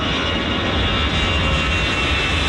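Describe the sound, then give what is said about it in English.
Planes taking off at Paris's biggest airport fill the air with a loud, steady jet-engine roar that holds evenly throughout, with no talking. “for not hearing anything over the sound of hundreds of flights taking off”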